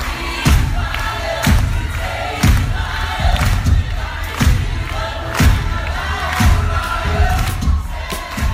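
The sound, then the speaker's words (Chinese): Loud crowd noise from a Broadway theatre audience: dense cheering and roar, punctuated by heavy rhythmic thuds at a steady beat of roughly one per second throughout. “这是百老汇的掌声雷动”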